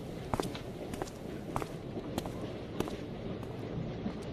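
Footsteps walking off along a train toward its dining car: a few soft, irregularly spaced steps over steady background noise.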